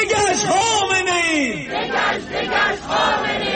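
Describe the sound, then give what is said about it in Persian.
Protesters outside the UN office in Geneva shout chants for democracy in Iran and against the execution of protesters, a loud, continuous mass of voices with drawn-out cries early on that give way to dense crowd shouting. “این فریاد دموکراسی خواهی برای ایران در ژنو سوئیس مقابل دفتر سازمان ملل.”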